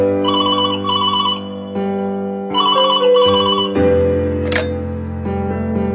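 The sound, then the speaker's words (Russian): A telephone rings with an electronic ringtone in two repeated warbling bursts, each made of two quick pulses, over a steady sustained musical drone, with a brief chirp near the end. “И тут вдруг, в один прекрасный день, раздается телефонный звонок.”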